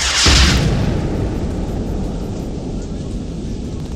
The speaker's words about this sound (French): quand une roquette parfaitement ajustée va exploser contre le monstre en plein torse.